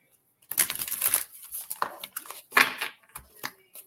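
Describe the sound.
Shuffling a deck of oracle shaman cards for a reading: soft, dry riffling and rustling in a few irregular bursts, with quiet gaps between them.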